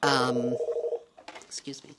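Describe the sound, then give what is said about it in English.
Electronic telephone tones sound in a party headquarters office, a short run of stepped, buzzy beeps at changing pitches, then a person starts speaking. “At Republican Party headquarters in Des Moines, the phone is ringing constantly”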